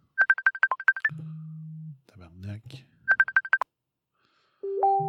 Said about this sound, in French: Pourquoi que ça sonne puis qu'il répond pas?